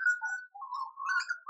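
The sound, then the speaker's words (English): A bird singing outside in a garden delivers one brief phrase of clear whistled notes that shift up and down in pitch, heard alone against silence. “Jackstar is sitting outside in her beautiful garden and we're listening to the birds singing in the background. They're like serenading everything that you're saying.”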